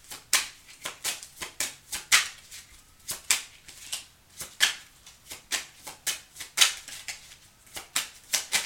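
Tarot cards are shuffled and drawn in quick, crisp bursts of riffling and snapping. The card sounds repeat in a steady, lively rhythm throughout, and no voices are heard.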